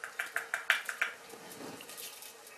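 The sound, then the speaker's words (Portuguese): A utensil stirs rice in a pot over high heat, knocking against the pan in about seven sharp, quick taps. These give way to softer, quieter scraping. “E deitar o arroz. Portanto, pôr o lume no máximo. Portanto, estou a mexer para uniformizar.”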